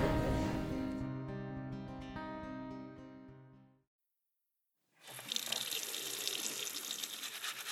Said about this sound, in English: I'm just taking a minute to wash my hands before we begin the show this week.